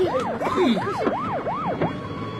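Police car siren wailing loudly in rapid rising-and-falling sweeps, about five in a row, before it trails off. No one speaks over it.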